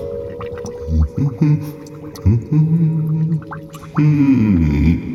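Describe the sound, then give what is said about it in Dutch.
A voice hums the song of the zebra sea spider, a wobbly, gurgling melody that jumps between notes and turns louder and brighter toward the end. “En dan zingen we ons lied. Oh? Het zebra-zeespinlied.”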